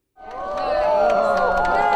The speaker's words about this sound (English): people from around the world still gasp and cheer when Old Faithful erupts